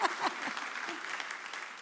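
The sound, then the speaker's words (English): Audience applause honoring mothers: dense, steady clapping from many hands that fills the whole stretch at an even level. “you can clap if you want to for your mom or yourself if you are the mom”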